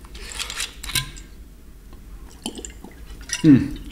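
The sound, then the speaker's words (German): A person takes a sip of water on a hot day: faint liquid and glass sounds, then a brief, louder swallowing gulp near the end, over quiet background. “jetzt muss ich mal einen Schluck Wasser trinken, ist schon wieder heiß.”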